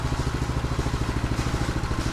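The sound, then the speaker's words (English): An engine idles while warming up, running rich on too much choke, with a fast, even, rough low putter of steady pulses. “Let it idle till it warms up. Yeah, I had it too rich. I gave it too much choke.”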